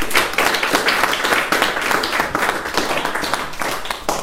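An audience applauds a person, producing dense, steady clapping with sharp individual claps that stays loud and continuous throughout.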